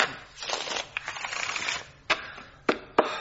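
Playing cards shuffled before a friendly card game: a soft, rapid riffling flutter, then three sharp, crisp snaps as the deck is squared. Fairly quiet, with no talking.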